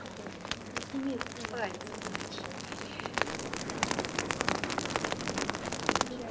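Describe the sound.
Campfire crackling: many sharp pops and snaps scattered irregularly over a low steady bed, with a voice heard briefly early on.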